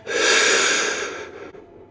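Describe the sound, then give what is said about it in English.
A single deep breath in during a guided relaxation exercise: a steady, airy rush that swells quickly, holds for about a second and then fades, with no talking. “And then we can just take a nice breath in”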